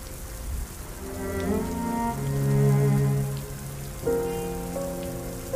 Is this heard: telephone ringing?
no